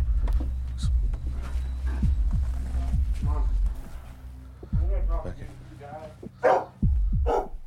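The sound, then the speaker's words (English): A caged bulldog barking indoors at a house, its rough barks set against a steady low throbbing hum. “So I opted to just stand there and listen to his cage bulldog bark at me.”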